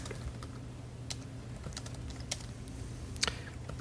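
Typing on a computer keyboard as a command is entered: several soft, irregular key clicks, faint over a steady low hum, with one slightly louder cluster near the end.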